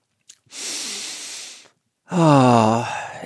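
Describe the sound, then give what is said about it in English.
A deep breath drawn in through the mouth makes a long, airy rush of air. After a short pause it is followed by a louder, voiced sigh as the breath goes out. “what I'd like you to do is take a nice deep breath and just fill yourself with air”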